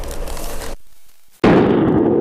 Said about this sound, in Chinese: 接下来的消防实验提醒您，使用不当，自热锅会变成餐桌炸弹。